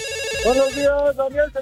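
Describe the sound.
A telephone rings with an incoming call to a radio call-in show, its electronic ringtone a loud, steady, high tone with a voice joining toward the end.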